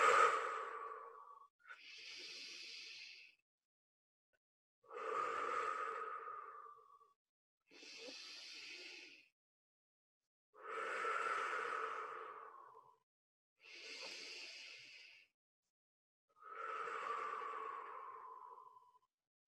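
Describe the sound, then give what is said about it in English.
Deep breaths taken during a guided meditation: seven long, soft breath sounds, each a gentle airy rush lasting roughly two seconds, separated by short pauses, with no talking. “Couple of deep breaths.”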